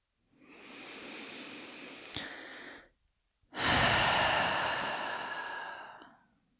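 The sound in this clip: Slow, deep breathing during a relaxation exercise: one long, airy breath, a short pause, then a louder, longer exhale that gradually fades, with no talk.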